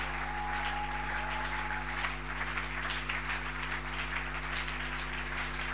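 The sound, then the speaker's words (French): A church audience cheers and applauds to acclaim God: dense, steady clapping and crowd noise run the whole way through at an even level, with sustained tones held underneath. “Est-ce qu'on peut acclamer Dieu comme il se doit? Est-ce qu'on peut acclamer Dieu comme il se doit?”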